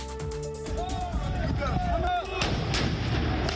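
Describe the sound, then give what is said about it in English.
Sharp bangs of French police firing tear gas at yellow-vested protesters on Paris streets, a few loud reports cutting through steady crowd noise, with voices and wavering whistle-like tones across the whole stretch. “French police firing tear gas at yellow-vested protesters.”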